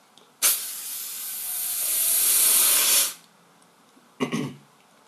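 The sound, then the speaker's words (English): A long, loud, hissing spray from skunks spraying toward people. The broad hiss holds steady and swells slightly for about two and a half seconds, stops abruptly, and after a short pause a brief second burst follows. “every one of the skunks sprayed toward the humans”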